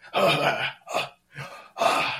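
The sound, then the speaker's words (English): A voice imitates heavy, labored breathing while climbing steps: four loud, rough breathy huffs in a row, with short pauses between them. “Breathing just like that. Coming up the steps.”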